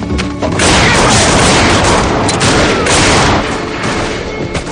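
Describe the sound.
Loud gunfire crashes through a western film shootout on the rooftops, a heavy volley of booming shots that merge into a dense, sustained barrage and ease off slightly toward the end.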